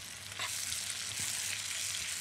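Onions frying in a pan give a steady, bright sizzling hiss with a few faint crackles and pops throughout. There is no talking over it.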